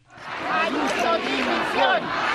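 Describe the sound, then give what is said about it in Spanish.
A large protest crowd fills the streets of Madrid in a march against the regional government's handling of the public health system, shouting and chanting loudly and continuously with many overlapping voices. “Cientos de miles de personas inundaron el domingo las calles de Madrid en una protesta contra la gestión del sistema público de salud en la capital española por parte del gobierno regional.”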